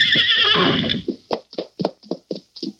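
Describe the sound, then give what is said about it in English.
Silver, the Lone Ranger's horse, gives a loud, shaky whinny, then a steady run of hoofbeats clops along in an even rhythm with no voices. “as he rode past a broad plain of juniper trees and sagebrush, Silver stopped suddenly. What's wrong, Silver? You want to cut off the trail? All right, fella.”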